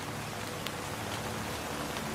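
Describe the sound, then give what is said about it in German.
Rain falling steadily, a continuous dense hiss of drops striking a surface, even in level with no breaks. “Ein Moment der Stille folgt, während der Regen unaufhörlich fällt.”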